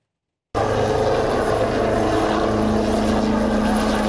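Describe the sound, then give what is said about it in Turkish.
Propeller noise from a Gökbey helicopter at an air force aviation festival in Çiğli, İzmir: a loud, steady rotor drone with a low hum that starts abruptly after half a second of silence and holds level to the end. “Gökyüzü önce Gökbey'in pervane sesleriyle yankılandı”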